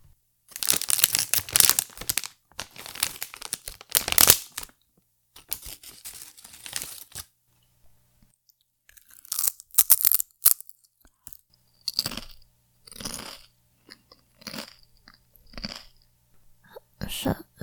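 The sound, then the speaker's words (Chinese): A bag of plain potato chips is crinkled and torn open in several bursts of dense rustling. Then come separate crisp crunches of bites and chewing, with short quiet gaps between them. “哦，我要吃原味的洋芋片，原味洋芋片最好吃了。”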